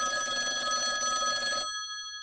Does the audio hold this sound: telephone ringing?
yes